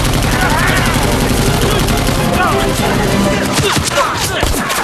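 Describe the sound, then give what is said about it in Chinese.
Machine gun fire in a battle at a mountain cave, a dense, loud clatter of rapid shots that runs through the whole clip with other gunfire mixed in. “给我上机枪！”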